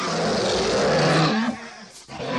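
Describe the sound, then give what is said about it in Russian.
A bear roars in anger: a loud, deep, rough roar that briefly drops away and then returns near the end, with no speech. “Рассердился медведь, поднялся из-под дерева и бросился, рыча, на обидчика.”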